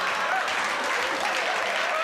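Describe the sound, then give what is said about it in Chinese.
Audience clapping during a comedy stage performance, a steady, dense patter of applause that carries on evenly throughout. “如果感到快乐，一起拍拍手，啪啪啪！ 够了，还啪啪啪！”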